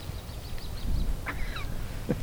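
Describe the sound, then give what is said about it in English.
Robins give their evening go-to-bed call: a few thin, high chirps and short whistled notes, fairly faint, over a low rumbling background. “Not far away, robins make what Miller says is their go-to-bed call.”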